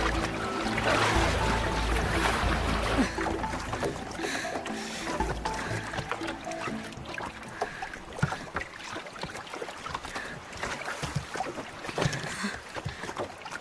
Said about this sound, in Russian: Хватается за край лодки. С трудом забирается в нее.